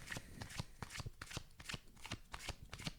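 A deck of playing cards being shuffled: a quiet run of many quick riffling bursts, each a crisp papery flutter, following one another in an uneven rhythm with no talking.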